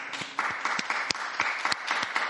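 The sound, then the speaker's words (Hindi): Applause at a beatification ceremony honours newly beatified martyrs: a crowd's dense, steady clapping, fairly faint, with a few sharper claps standing out. “तब संत पापा ने नए धन्यों को ताली बजाकर सम्मानित किया।”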